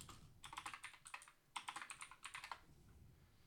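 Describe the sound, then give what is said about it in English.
Computer keyboard typing as a search term is entered, faint rapid key clicks in two quick bursts separated by a brief pause, trailing off at the end. “Type in Sandcrawler.”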